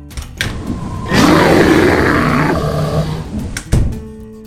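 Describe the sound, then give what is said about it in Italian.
A single long, loud roar from a sleepy bear close to hibernation time swells and rumbles for about a second and a half, then trails off into lower growling noise, with a sharp hit near the end. “Ma è un orso! È anche molto assonnato!”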